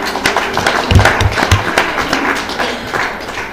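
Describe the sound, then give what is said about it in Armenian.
An audience claps hands to the Lord during an Armenian church service, loud rhythmic clapping mixed with low thumping beats, the thuds most prominent in a short run near the middle before the clapping carries on. “Կարող ես ծափարել Տիրոջը։”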